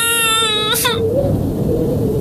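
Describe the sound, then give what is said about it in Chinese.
An infant bursts out crying all at once: one loud, high, wailing cry that holds for about a second, then breaks off into a low background hiss. “黑子忽然哇的一声哭起来”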